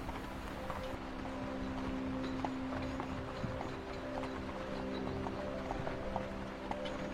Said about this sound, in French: La calèche est actuellement sur la neige. Elle avance doucement au rythme des chevaux qui la tirent.